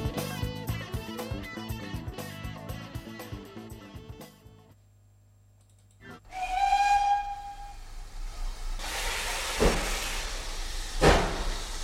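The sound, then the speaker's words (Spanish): A train whistle sounds for departure as one steady, piercing tone, followed by loud, sustained hissing. Music plays before it, then falls silent just before the whistle. “vamos a subir al tren porque va a pitar su salida y no es cuestión de quedarse abajo.”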